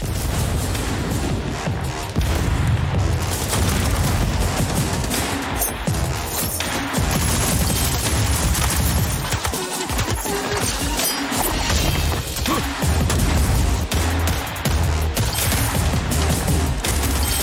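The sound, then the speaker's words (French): Rapid gunfire and explosions from a fast, hard-core shooter video game with weapons and grenades. Dense, continuous bursts of shots and booming blasts fill the whole stretch at a steady, loud level. “c'est un shooter pur et dur, rapide, avec des bébites, des armes, des décors et des grenades.”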